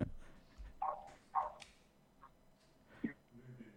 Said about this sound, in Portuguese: ao final aí do, do fundo tem um latido aí de um cãozinho